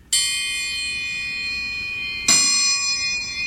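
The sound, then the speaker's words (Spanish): A metal triangle struck twice, each hit giving a bright, high, shimmering ring that sustains and slowly fades, with the second strike arriving near the end and ringing out alone. “Y así suena el triángulo.”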